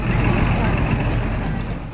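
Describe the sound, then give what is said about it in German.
Steady low engine rumble of a bus arriving in the Northern Black Forest with shift workers aboard, a loud, even drone that holds throughout with no clear pauses. “Der Bus ist im Nordschwarzwald angekommen. Nach und nach steigen alle aus.”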